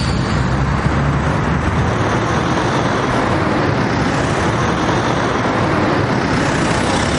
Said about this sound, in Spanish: Un lujoso vehículo de color negro pasa despacio junto a la chica.